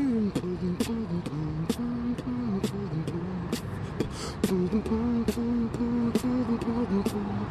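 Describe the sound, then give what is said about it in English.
A man beatboxes the French national anthem. He voices the tune in a steady mid-pitched hum and punctuates it with many sharp, clicking percussive bursts. “What you're hearing is beatboxing of the French national anthem by this guy that we just met.”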